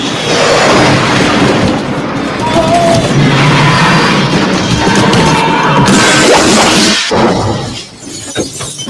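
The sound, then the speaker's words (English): Sound effect of the shuttlecraft Galileo skidding into the Enterprise shuttle bay and being stopped by an arrestor net, in a Star Trek V scene. A loud, sustained grinding crash and rumble runs for about seven seconds, then drops abruptly into a quieter tail. “The Galileo skids into the shuttle bay and is stopped by an arrestor net.”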